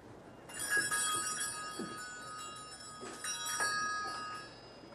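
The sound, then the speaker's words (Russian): Small bells and metal trinkets tinkle as they are touched on a shelf of knick-knacks in a room: a few bright strikes leave overlapping, sustained ringing tones that linger and fade between fresh touches. “Трогает многочисленные колокольчики и железяки.”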